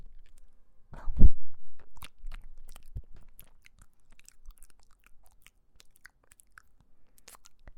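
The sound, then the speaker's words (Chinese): Crunchy biting and chewing of home-cooked food: one loud crunch, then a few softer chewing sounds that fade to faint mouth noises, with no talking. “我来尝一下。”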